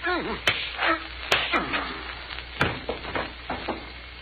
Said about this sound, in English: One good punch in the right face.